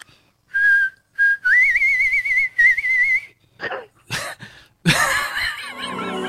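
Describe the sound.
A person whistling a pop song melody: clear, wavering tones in a few phrases with sliding pitch, then breaking off into a few breathy, noisy bursts.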